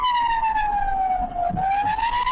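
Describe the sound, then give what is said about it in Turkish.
An ambulance siren wails through traffic as the ambulance travels in the left lane in Istanbul's Büyükçekmece district. The loud, continuous electronic tone sweeps downward, dips, then climbs again over a low rumble of road traffic. “İstanbul Büyükçekmece'de bir ambulans sirenleri açık halde sol şeritte ilerliyordu.”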